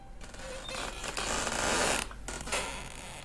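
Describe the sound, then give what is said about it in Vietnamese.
A wooden door creaks as it swings shut by itself. A long, grating rasp swells toward the middle and then breaks off abruptly. “Có tiếng kẽo cả kẽo kẹt vang lên. Tôi nhìn ra cánh cửa trước mặt, nó đang tự động khép vào.”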